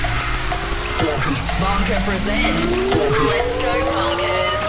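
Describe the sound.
Car engine cranked up and revving, its pitch climbing in a few rising sweeps over a dense, steady roar that stays loud throughout.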